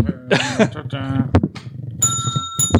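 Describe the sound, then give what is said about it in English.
A bell is struck twice after a stretch of talking voices, each hit leaving bright, sustained ringing tones. “I'm doing it on purpose. Does this count? I know you're doing it on purpose. I'm still hitting the bell because you're still hitting your mic, annoying.”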